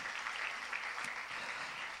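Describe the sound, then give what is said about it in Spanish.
Congregation applauding at a Spanish-language church service, a dense, even patter of many hands clapping for about two seconds without a break. “Denle una ofrenda de palmas al Rey de Reyes y Señor de Señores.”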